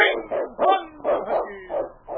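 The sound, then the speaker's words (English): A lead sled dog in the Yukon barks in a rapid, repeated series of loud, sharp, mid-pitched barks and yips, each burst following closely on the last with short gaps between. “It's Yukon King, swiftest and strongest lead dog of the Northwest, blazing the trail for Sergeant Preston of the Northwest Mounted Police”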